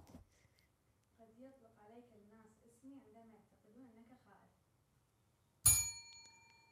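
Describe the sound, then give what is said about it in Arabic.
A single bright bell ding strikes sharply and rings on with sustained metallic overtones, coming after a stretch of talking voices. “انا طقيت الجرس انت ما طقيتي”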